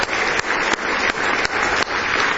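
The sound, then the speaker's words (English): A church audience claps in praise during a worship service, a dense, steady burst of applause with a few brief rhythmic accents. “Give Him a big hand clap of praise if you love Him.”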